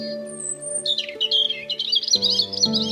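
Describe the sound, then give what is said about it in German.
A mother bird calls to her chick with high, quick warbling chirps and trills that grow busier midway, over a backdrop of steady low sustained tones. “Sie sagt ihrem Küken, dass es sich keine Sorgen zu machen braucht.”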